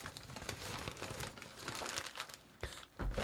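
Gift wrapping being ripped open: a continuous crinkling, tearing rustle of paper, with a few sharper, louder bursts of tearing near the end and no talk.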